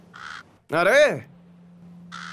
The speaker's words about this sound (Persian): پرنده هم داره نظرش رو میگه. چرا؟ چون کلاغم میفهمه.